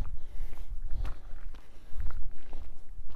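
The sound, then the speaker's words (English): Footsteps of a person walking during a walk-run workout on a cold day form a steady stream of soft, rhythmic footfalls with no talking. “So, my 15-second walk, and then I'll walk the 45-second run segment.”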